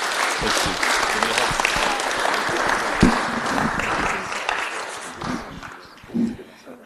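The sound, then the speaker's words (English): Dense audience applause from a church audience for a couple just blessed at a service, sustained and fairly loud before thinning out near the end, with voices calling out among the claps. “Can we give them a round of applause?”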